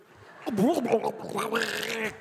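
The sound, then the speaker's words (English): A man's voice imitates gargling up vomit: a wavering, throaty gurgle with a shifting pitch that lasts about two seconds. “Stephen Fry gargling up vomit, which is one of the sexy chapters.”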